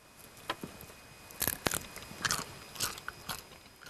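Crunchy pasta with winter bamboo shoots being bitten and chewed, giving a quiet series of crisp, brittle crunches at uneven intervals.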